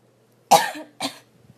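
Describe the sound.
Two coughs from an itchy throat, one sharp and loud, then a second slightly softer one about half a second later, alone in a quiet setting.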